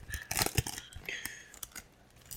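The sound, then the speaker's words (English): Trading card packs are torn open with faint tearing and crinkling. A few short, papery rustling bursts with soft crackles come close together, then quieter rustles follow. “But I'm gonna open up a couple packs just for fun.”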